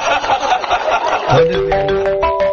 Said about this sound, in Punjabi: ਤਾਇਆ ਜੀ ਇੱਕ ਟੈਲੀਫੋਨ ਹੋਰ ਆ, ਆਪਾਂ ਉਹ ਟੈਲੀਫੋਨ ਵੀ ਚੱਕ ਲਈ।